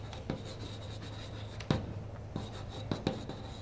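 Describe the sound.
Soft scratchy strokes of writing something down, faint over a low steady hum, broken by a few sharper taps and knocks as the writing tool meets the surface.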